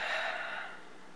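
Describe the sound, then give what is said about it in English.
A deep release breath exhaled through the mouth during guided breathing, a single soft airy rush that starts fullest and gradually fades away. “Come to take a deeper breath in. Exhale through your mouth for a release breath.”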